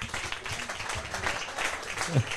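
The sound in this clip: Audience applause as a man is called to the front at a live event: a short burst of moderate, scattered clapping that holds steady throughout.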